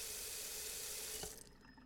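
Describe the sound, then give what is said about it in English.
A tap runs in a steady rushing stream to wet a washcloth, then shuts off, leaving near silence. “I'm gonna get a wet washcloth.”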